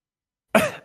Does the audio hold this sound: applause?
no